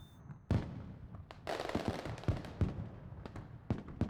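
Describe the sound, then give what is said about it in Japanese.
Fireworks burst at a contest among skilled pyrotechnic craftsmen: a sharp boom, then a long crackling spray and a series of loud pops and bangs in irregular succession. “見えましたか？とても綺麗な花火が上がるんですよ。”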